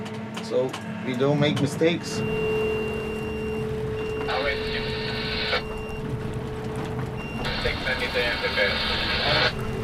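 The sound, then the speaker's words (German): Heavy excavator working from a pontoon, digging into hard, sandy ground: a steady mechanical rumble with a constant low hum, broken by two long stretches of bright, high hydraulic hiss. “Das ist wirklich eine gewaltige Maschine. Ich bin immer noch beeindruckt, wenn ich den Bagger arbeiten sehe und wenn ich selbst drin sitze.”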